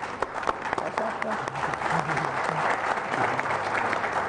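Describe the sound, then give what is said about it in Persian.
Audience applause for a birthday: dense, steady clapping runs through the whole clip at an even level, with voices faintly audible underneath. “ما از الان تولد شما رو تبریک میگیم و برای شما دست میزنیم.”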